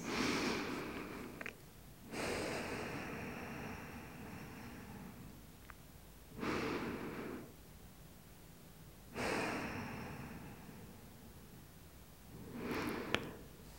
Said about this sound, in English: And then taking a few deep breaths,